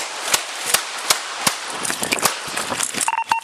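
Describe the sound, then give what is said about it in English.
Gunshots in police body camera footage of a fatal shooting at a traffic stop in Philadelphia: loud, sharp cracks, several evenly spaced at first, then a denser, more irregular clatter of impacts. “413, shots fired, 100 West Boulevard.”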